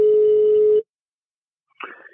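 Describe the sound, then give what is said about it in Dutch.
A steady telephone dial tone sounds for under a second as a call is placed, then stops dead. After a silent gap, a short burst of another telephone sound follows. “We gaan hem even bellen.”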